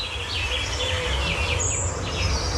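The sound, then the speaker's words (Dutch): Birds chirping and twittering: many short, high chirps and tweets repeat over a steady low background hum. “Maar er is sprake van intensieve communicatie. Veel gechilp en getwitter en getweet.”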